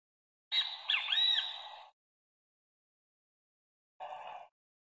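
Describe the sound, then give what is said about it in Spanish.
A great kiskadee calls twice: a longer, harsh, squealing phrase of bending notes, then after a pause a shorter, buzzier burst. Both calls stand alone against silence. “Empezamos con el venteveo, que lo estamos escuchando de fondo.”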